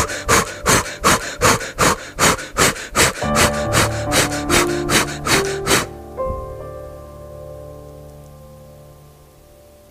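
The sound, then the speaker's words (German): Rapid, forceful breathing in and out with arms raised: many quick breaths in a steady, even rhythm over soft sustained tonal music. The breathing stops abruptly, and the music lingers faintly afterward. “Einmal atme ein paar Mal ganz schnell ein und aus mit den Armen nach oben. Das hört sich so an.”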